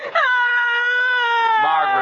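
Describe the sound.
A child wails in one long, unbroken cry, a loud, steady high-pitched tone that wavers only slightly toward the end.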